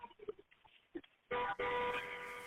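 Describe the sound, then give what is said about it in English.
A car horn honks repeatedly during an emergency phone call. Faint, muffled sounds come first, then two sustained, buzzing honks follow almost back to back, the second one longer. “Honk, honk. She's still doing it. You can hear it. I'm sure dispatch is putting the notes in. I can hear the horn in the background.”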